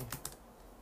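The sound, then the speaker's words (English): Keystrokes on a computer keyboard while a word is looked up: a few quick, faint clicks at the start, then quiet. “So I'm going to look it up on my computer right now, facetious.”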